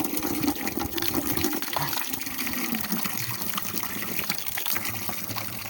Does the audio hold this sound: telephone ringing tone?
no